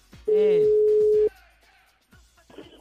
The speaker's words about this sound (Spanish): Cuelguen sus celulares, manténganlos libres, porque la producción les está marcando en este momento. Subimos la llamada